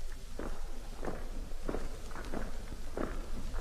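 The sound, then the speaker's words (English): Marching feet tramp in a steady, regular tread, with one heavy step roughly every two-thirds of a second over a constant rough background noise. “What do you make of that, Doc? Sounds like a drum, or a piece of machinery. No, it's marching feet.”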